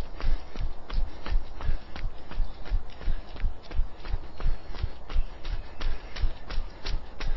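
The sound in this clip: Jogging footsteps during a warm-up drill that follows a knee-to-chest exercise. Many loud, thudding steps keep a quick, even rhythm throughout.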